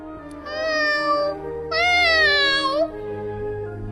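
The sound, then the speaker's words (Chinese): A kitten meows pitifully, as if pleading, in two drawn-out plaintive cries. The second cry is louder and brighter than the first, and there is no other sound between them. “小猫咪可怜地哀求着”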